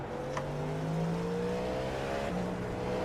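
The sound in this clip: A race car engine in a racing video game drones steadily at moderate speed. Its pitch climbs gently, then drops suddenly like a gear change, and the engine tone carries on smoothly afterward.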